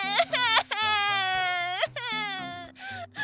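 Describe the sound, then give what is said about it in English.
A voice imitates a baby sobbing, with several quavering, high-pitched wailing cries broken by short catches of breath, clear and alone. “The baby's sob continued again”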